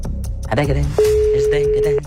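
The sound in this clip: A telephone call ringing out, heard as a single steady ring tone lasting about one second after a brief moment of talk.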